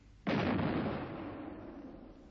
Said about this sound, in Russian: Это салют. Совершенно верно. Шестидюймовая батарея салютует.